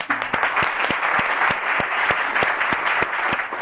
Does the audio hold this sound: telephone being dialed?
no